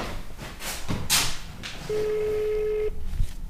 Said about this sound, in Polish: Spróbujemy zadzwonić do córki.